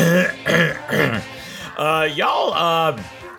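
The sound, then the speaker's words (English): A person clears their throat several times: a few short, rough voiced bursts, then a longer, strained voiced clearing that swings up and down in pitch. “I think you should just call this the throat clearing episode where we're gonna muscle right through it.”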